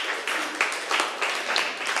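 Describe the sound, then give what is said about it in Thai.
Students in a classroom clap for their classmates, a group clapping together in a steady rhythm of evenly spaced bursts at a moderate level, with no voices over it. “ปรบมือให้เพื่อนหน่อยค่ะ”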